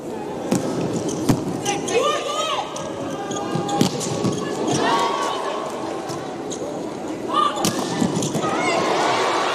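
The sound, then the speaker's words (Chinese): A volleyball serve is struck during a Serbia versus Italy match: a few sharp slapping hits stand out over steady crowd noise, with a voice talking. “恰伊奇发球”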